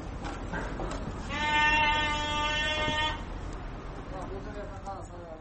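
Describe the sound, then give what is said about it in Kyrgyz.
A single sustained, harmonic bleat from a sheep at a small livestock market in Bishkek where fat, fat-tailed, neatly shorn sheep are traded. The bleat rises clearly above a steady background of crowd noise and voices. “Бишкектеги баят деп аталган майда жандык саткан чакан базар. Жүнү тыкан кыркылган, семиз, куйруктуу койлорду аралап соодалашкан кардарлардын аягы тыйылбайт.”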